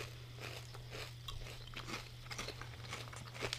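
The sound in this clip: Crunching of barbecue and sour cream and onion flavoured chips: faint, crisp bites and crackles scattered over a low, steady hum.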